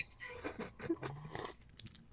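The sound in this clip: Wet gulping and slurping as pickle brine is drunk straight from the jar, a few irregular mouth and swallowing sounds with soft crunchy clicks, fairly faint and with no talking.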